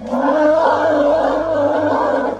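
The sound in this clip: A large tusked elephant trumpeting loudly, a harsh, sustained harmonic blare that holds steady for about two and a half seconds, with no voices.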